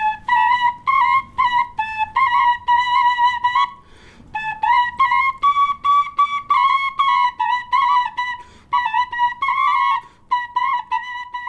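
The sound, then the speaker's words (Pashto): A double shepherd's flute, two pipes blown at once by one player, carries a bright, whistle-like folk melody of many quick, even-pitched notes in rhythmic phrases, briefly pausing twice, with no voices. “یوه نه بلکې غبرګې شپېلۍ په یوه وخت ژغوي”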